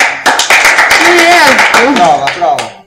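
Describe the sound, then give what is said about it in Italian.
Loud hand clapping comes as a dense burst of many claps under loud, overlapping voices, with a few sharper claps near the end as the sound fades. “Applaudi.”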